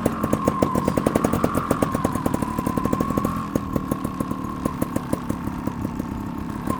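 A 300 cc trials motorcycle engine runs at low revs, its rapid, even firing pulses forming a steady throbbing putter that stays loud and unbroken throughout, with no talk over it.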